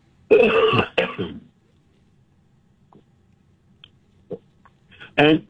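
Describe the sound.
Throat clearing by a person, with two harsh rasping bursts, one at the start and one at the end, separated by quiet with a few faint clicks.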